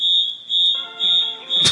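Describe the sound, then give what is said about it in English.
A fire alarm goes off with four shrill, high-pitched beeps in an even, repeating rhythm, each beep loud and sharply cut. “Well, I mean, I have this fire alarm that's going off.”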